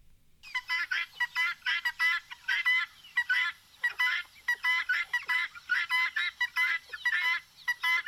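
A guinea fowl calls, played back from a video. Many harsh, rapid two-part calls repeat in a steady, insistent rhythm. They are fairly faint and heard alone.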